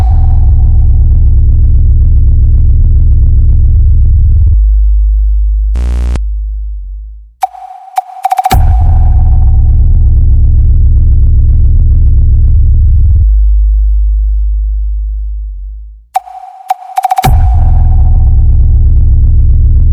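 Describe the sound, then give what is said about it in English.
Bass test tone for a sound check: deep, loud, sustained low-frequency tones in a few long stretches, broken by brief gaps, a short pulsing burst and sharp higher beeps, with no voices. “Especially made to check the high bass frequencies.”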